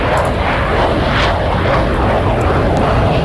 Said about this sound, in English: the Red Arrows are going to be flying over Northern Ireland later on